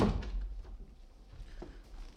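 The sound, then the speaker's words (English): A door being shut, heard as one soft thud right at the start, followed by a quiet pause with faint small knocks and rustling. “Close the door.”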